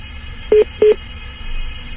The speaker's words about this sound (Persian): الو خب تلفن شما هم که قطع شد